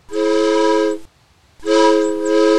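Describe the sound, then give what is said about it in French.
A train departing a small station sounds its horn in two long, loud, steady blasts with a short silent gap between them, and no voices. “Excusez-moi monsieur, mais comment se fait-il qu'un train passe dans cette gare?”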